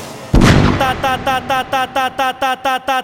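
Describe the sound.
AK rifle gunfire effect in a song: one heavy blast, then a rapid, evenly spaced string of many shots that fall in rhythm with the beat.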